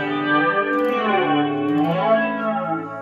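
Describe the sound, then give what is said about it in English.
Electric guitar played through a dynamic reverb effect, a steady stream of rich, sustained harmonic notes that shift gradually in pitch, swirling and washed out with a chorus-like shimmer, loud and continuous with no talking. “You got dynamic reverb. It changed my tone of my guitar a lot.”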